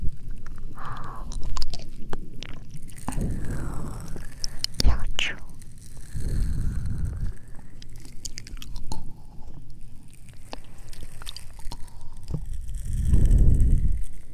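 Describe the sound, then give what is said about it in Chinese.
Wet, crunchy chewing as a predator slowly works its teeth through paralyzed prey, in uneven bursts of squishing and biting that swell and fade over a low, continuous background. “用牙齿慢慢咀嚼被麻痹的猎物”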